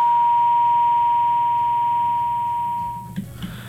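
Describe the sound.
A telephone tone after a disconnected call: one steady, high, level beep sustains for about three seconds, then cuts off, leaving faint low rumble.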